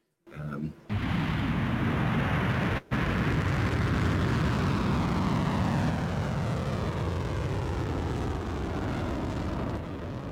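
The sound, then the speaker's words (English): Roar of Iranian ballistic missile launches, a loud, steady rumbling blast that holds almost unbroken for about ten seconds after a brief stutter near the start, with one short dropout partway through. “So these are the launches from Iran.”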